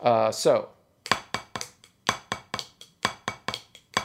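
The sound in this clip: A flam tap drum rudiment played with both hands follows a brief spoken word, as a steady run of many crisp drum strokes, with accented hits falling between lighter taps in an even, rolling rhythm.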